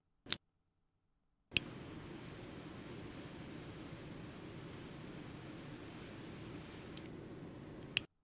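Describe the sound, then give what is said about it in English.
Cutting and lighting a Carrero Pledge Prequel Ernesto Perez Carrero cigar, 5 and 50 size: a sharp snip, then a click and a steady hissing flame lasting several seconds, ending with a couple of clicks. “Now, to start the episode, let's go ahead and cut and light.”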